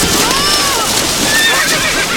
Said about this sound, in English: two horses and two riders galloped neck to neck and knee to knee, just as if they were in a race.